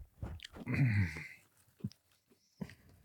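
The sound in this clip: Someone chewing weenie chews candy, with moist mashing and a few soft bites interrupted by breaths, fairly faint.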